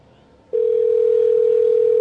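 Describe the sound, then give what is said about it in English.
An outgoing phone call to a pizza restaurant rings, heard as one loud, steady electronic tone that begins after a quiet moment and holds unbroken to the end. “It's ringing.”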